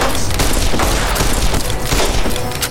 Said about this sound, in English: Let me get my other gun out. Hold your horses. We're gonna try this gun again.